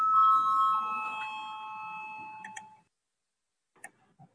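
A bell is rung in a parliamentary chamber to call members to a vote. It gives a bright, ringing tone with several overtones that fades out over about three seconds, followed by a few faint clicks.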